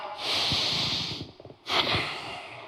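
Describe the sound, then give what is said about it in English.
Two big, quiet breaths, airy and hissing, separated by a short pause, with faint low sounds under them. “big breath.”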